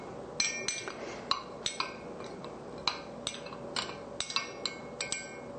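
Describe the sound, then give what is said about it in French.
Teaspoon stirring water, sugar and a sachet of yeast in a container: many light, bright metallic clinks at an irregular pace, fairly faint, with no talk. “avec l'eau et avec la cuillère à thé de sucre. Alors, on mélange.”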